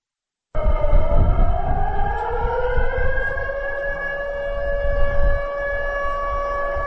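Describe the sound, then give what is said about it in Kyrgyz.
A border-village civil-defence warning siren sounds during a test in the Batken region, starting abruptly and loud, its wail climbing in pitch over the first seconds, then holding a steady, sustained drone alone. “Текшерүү иретинде жанган сиренанын добушун биз үчүн Жеңиш Айдаров жаздырып алды.”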